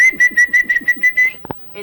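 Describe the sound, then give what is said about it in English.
A man whistles the way he calls his dogs: a rapid run of short, bright, piercing notes on a steady pitch, followed by a brief knock. “Will you whistle the way you whistle for your dogs”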